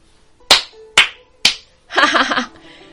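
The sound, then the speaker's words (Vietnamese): Three sharp hand claps ring out, evenly spaced and crisp, each decaying quickly. A short burst of voice follows them. “Thanh niên hoa phục kinh ngạc một chút, rồi vỗ tay cười to.”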